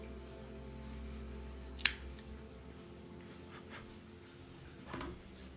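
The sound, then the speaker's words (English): A single crisp snip as a dual V-cutter notches the head of a La Aroma de Cuba Mi Amor cigar. The brief, sharp click stands out over a faint, steady background hum. “Let's give it a cut, test out the cold draw. I am using the Cassetti dual cutter, the V cut.”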